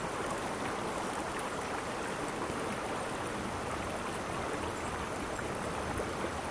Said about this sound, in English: Listen to the current. Let it take your thoughts away for a second.